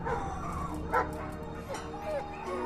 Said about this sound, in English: Inside, dogs are locked in cages. One husky paws at its cage.